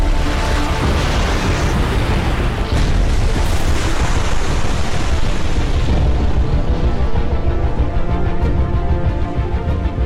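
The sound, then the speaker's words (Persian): A large volcano erupts, spewing ash and lava from its crater in a loud, continuous, rumbling roar that holds steady for about ten seconds. “صورت خاکستر و گدازه از دهانه آتشفشان های بزرگ فوران می کند.”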